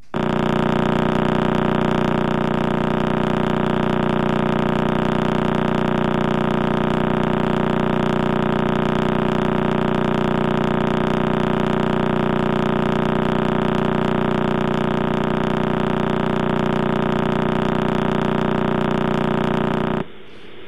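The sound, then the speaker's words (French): The rotation of the Crab pulsar's neutron star, spinning about thirty times per second, is converted into sound: a loud, steady, buzzing drone that holds unchanged for about twenty seconds before cutting off abruptly. “cette étoile à neutrons qui tourne sur elle-même. Pulsar du crabe que l'on écoute.”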